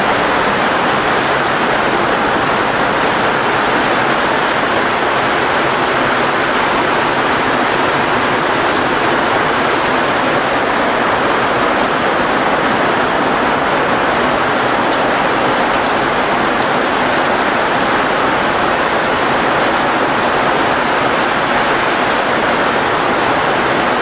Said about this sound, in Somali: Shaqartaas aad maqleysaan waa roobkii xognaa ee xalay ka da'ay degmada Buwaale.